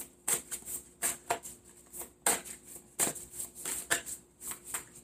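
Tarot cards being shuffled in many crisp, papery riffling bursts that repeat at a brisk, uneven rhythm, each one rising and fading quickly, with no talking.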